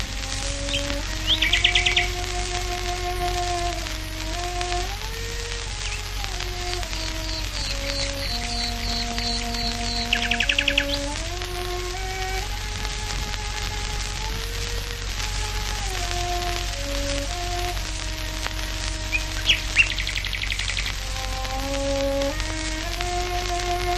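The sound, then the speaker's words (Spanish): Nightingale singing in a Surrey garden, its short high chirping and trilled phrases coming in faint bursts over sustained, stepping cello notes and a low steady background hum. “La chelista Beatrice Harrison abrió su jardín en el condado de Surrey para ofrecer un concierto que dejó atónita a la audiencia, porque la mayoría nunca había tenido la oportunidad de escuchar la voz del ruiseñor.”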